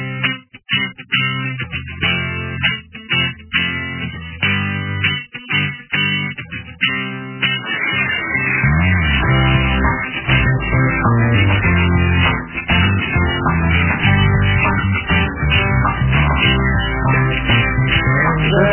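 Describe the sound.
A Ukrainian partisan war song of the UPA about machine-gun ammunition belts plays in a narrow, muffled band. Sharp rhythmic beats open it, then a denser, sustained arrangement takes over partway through and continues steadily.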